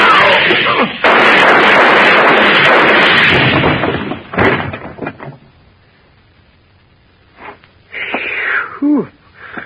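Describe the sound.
Gunshots fired from guns held against a post to muffle them: a long, loud burst of noise followed by a few dull thuds, then a man speaks briefly.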